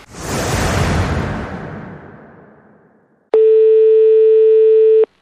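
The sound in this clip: Telephone ringback tone while calling a friend: a single loud, steady, mid-pitched tone of under two seconds, preceded by a broad whooshing noise that swells and then fades to silence.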